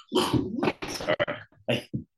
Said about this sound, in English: the dog's going off.